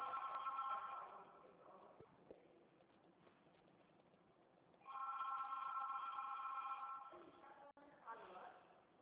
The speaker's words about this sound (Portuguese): Tem alguém me ligando aqui, não é você não, hein?